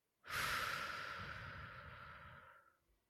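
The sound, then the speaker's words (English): A slow, deep breath taken during a guided breathing moment: one long, airy whoosh that swells quickly and then fades gradually over about three seconds, soft and alone. “we'd like to invite you to drop in and take a breath with us. Inhale. Exhale.”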